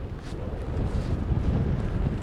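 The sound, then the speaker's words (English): Strong sea breeze blowing during buggy kiting, a loud, steady low roar of wind buffeting the microphone, continuous and without talk. “The wind is faster than I expected, actually.”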